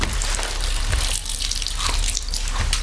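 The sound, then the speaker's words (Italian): Urination into a bathroom sink: a steady, loud splashing stream of liquid hitting the basin, continuous for a few seconds with no talk. “E allora piscia dentro il lavandino.”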